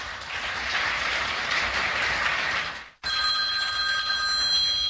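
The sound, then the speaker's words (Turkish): A telephone ringing: after a steady, broad rushing noise briefly drops away, a bright, high ring with sustained tones sets in and continues loudly to the end. “Aranızda iyi olanı varsa bir zahmet çıkıversin şu telefonu.”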